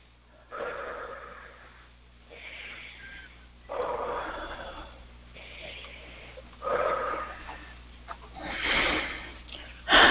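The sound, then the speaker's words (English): Slow, deep breathing during a guided healing session: several long, airy breaths with a sniffing, slightly wheezy edge, separated by short pauses, with no talk over them. “And 3 nice deep breaths.”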